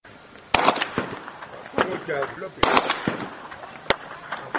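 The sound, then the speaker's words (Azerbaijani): Gunfire from a nearby military firing range beside farm fields: several sharp, loud cracks at irregular intervals over a steady noisy background, with talk in between. “Eşitdiyiniz atəş səsidir, amma bura döyüş zonası deyil.”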